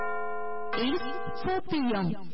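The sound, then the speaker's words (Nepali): A radio station's hourly time-signal chime: a steady, bright electronic tone rich in overtones, then a short wavering melodic phrase of gliding tones. “साहिनो समय सूचक अहिले दिउँसोको 4 बज्यो”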